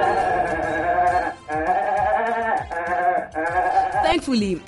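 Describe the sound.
Goat bleating in a series of several loud, wavering, nasal calls, each held for about a second, with only short pauses between them.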